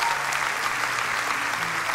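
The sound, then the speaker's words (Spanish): A church audience applauds, a dense and steady wash of clapping that stays loud and even from start to end with no voices standing out. “Vamos, si va a aplaudir, hágalo con ganas”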